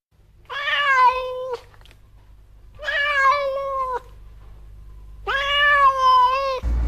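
A cat meows three times, each a clear, drawn-out, tonal cry separated by short pauses, with the last meow the longest and loudest, over a faint low hum.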